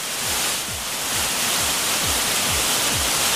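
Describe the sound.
Heavy downpour of rain pouring like a deluge, a loud, steady, dense hiss that fills the whole clip without pause and with no voices.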